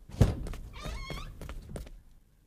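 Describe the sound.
Knocking on a door, opening with one heavy thud followed by a few lighter taps over a couple of seconds, no talking.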